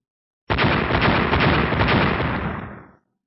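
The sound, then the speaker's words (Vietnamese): A thunderous explosive impact bursts in abruptly as one dense, roaring blast. It holds loud for about two seconds, then fades out quickly. “Liên tục vang tiếng nổ kinh thiên động địa, tiếng va chạm giống như Tu La, là tiếng nổ bị ngăn cản khi thử bước vào 30 thiên.”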